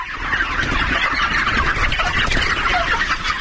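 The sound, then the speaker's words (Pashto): Dense clucking from a flock of about 15,000 white chickens on a poultry farm, a continuous, busy din of overlapping calls with no talk. “د محمد دا محل په دې فارم کې د شاوخوا 15000 سپین رنګ چرګانو پالنه کوي”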